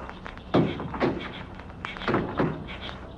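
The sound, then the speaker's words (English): Guns dropped to the ground land in a few dull, short thuds spaced unevenly apart, moderately loud over a faint background hiss. “Drop your guns, all three of you.”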